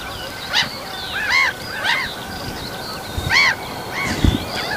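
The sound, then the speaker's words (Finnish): Black-headed gulls calling as they fly over the microphones on a morning at Lohja, Finland: a few harsh, nasal, arched cries at uneven intervals over a steady low background hiss. “Naurulokit on siinä mikkien päällä. Siitä lentää yli. Nekin on niin komeen näköisiä aamuvalossa.”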